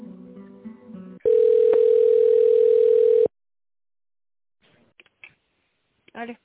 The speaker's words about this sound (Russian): Попробую сейчас с бухгалтерией соединить.